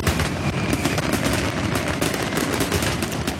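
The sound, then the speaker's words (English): Fireworks go off at a family fireworks festival's pyro-musical show, a dense, continuous barrage of sharp crackling bursts with no clear gaps, loud throughout and without voices. “So when you hear these fireworks,”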